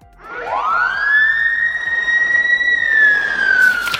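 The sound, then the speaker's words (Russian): A fire engine siren wails loud and alone, sweeping up in pitch at the start and then holding a high, steady tone that wavers slightly. “Пожарная машина воет. Иу, иу.”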